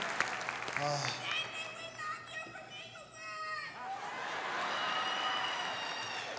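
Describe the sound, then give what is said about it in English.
Audience applause welcoming a guest onstage: a steady, dense wash of clapping and crowd noise throughout, with excited shouting voices rising over it. “Everybody give a warm welcome”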